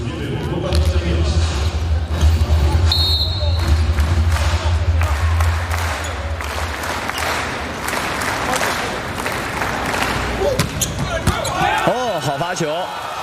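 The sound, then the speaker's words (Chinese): A substitute server strikes a serve during a China men's national volleyball match. The sharp ball hit sounds amid constant crowd noise, applause and cheering, with commentators talking throughout. “杨宝奇上来替补发球”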